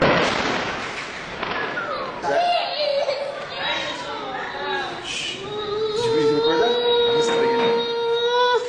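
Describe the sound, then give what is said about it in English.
A Lebanese child cries and whimpers amid Israeli bombing, with high wavering wails drawn out over sharp crackling bursts. Other voices are audible throughout. “The sound of a Lebanese child being terrorized by Israeli bombing.”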